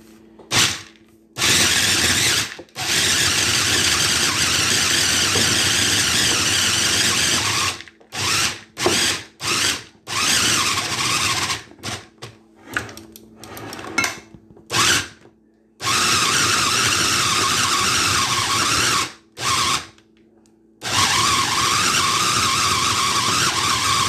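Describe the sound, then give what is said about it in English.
An electric grinder whirring loudly as it grinds prunes and raisins for Trini black cake, a steady high motor whine in long runs broken by many abrupt stops and short pulses, with no talk. “So now we are going to grind these prunes and raisins that we have left to add to our.”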